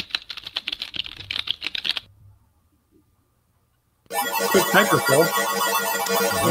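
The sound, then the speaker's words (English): Someone types on a computer keyboard, with about two seconds of quick, uneven key clicks followed by a silent pause. A denser, louder burst of clattering sound then begins. “So we're going to type that in.”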